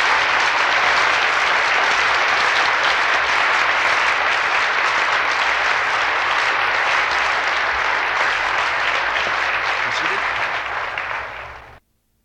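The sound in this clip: Loud, sustained applause at a graduation ceremony for Tanana Valley Community College degree recipients, an unbroken wash of clapping for about eleven seconds before it cuts off abruptly.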